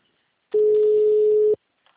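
A telephone dial tone follows a dropped phone call: one loud, steady tone at constant pitch lasting about a second, alone, then silence with a faint sound at the very end.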